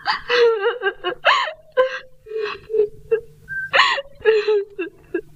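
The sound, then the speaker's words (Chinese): Someone crying and whimpering in a dramatic dialogue scene, with many loud bursts of wavering, pitch-bending wails broken by sobbing gasps and catches of breath. “哎，你不要哭，你不要哭啊！”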